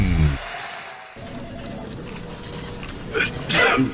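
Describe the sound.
Coughing and throat clearing from someone coming down with the flu. After a brief vocal sound and a quieter stretch, a few rough, raspy bursts cluster near the end.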